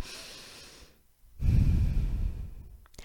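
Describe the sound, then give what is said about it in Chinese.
One deep breath: a soft, airy inhale, a short pause, then a louder and longer breathy exhale. “离职之前呢，请大家先深呼吸，来做一次哦”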